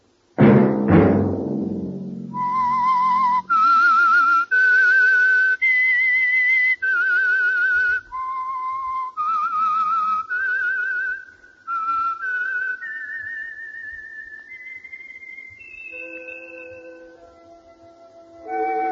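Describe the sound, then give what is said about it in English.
A solo whistled tune serves as a signature signal, opening after a low struck tone rings out, then clear melodic notes that climb toward sustained higher pitches near the end. “Let that whistle be your signal for the Signal Oil program, The Whistler, each Wednesday night at this same time.”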